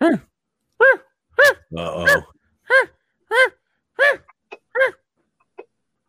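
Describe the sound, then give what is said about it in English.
A dog barks over and over in the early-morning hours, a string of loud, sharp, tonal barks with one rougher growling burst early on, trailing off into a few fainter yips. “No, it's the dog.”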